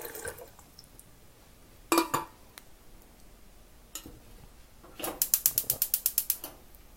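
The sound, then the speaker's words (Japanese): A gas stove is lit under a pot of water for instant cup noodles. A couple of isolated clunks come first, then the igniter fires a rapid, even run of ticking clicks over a faint background. “火にかけました”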